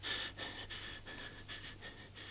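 A cat breathes laboriously while lying restless and unable to sleep, giving a faint, steady series of rapid, raspy breaths that rise and fall in a regular rhythm over a low hum.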